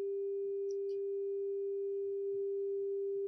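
A single steady pure tone, played as the 396 note, holds one even pitch at constant loudness for over three seconds. A couple of faint, brief high chirps appear near the start.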